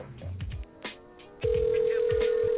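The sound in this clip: A phone call going through to voicemail: muffled line noise and a few clicks, then a steady, unbroken electronic tone starts abruptly and holds loudly until the end.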